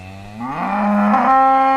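Cow mooing on a farm: a single long, loud, low moo that rises in pitch partway through and holds, heard alone.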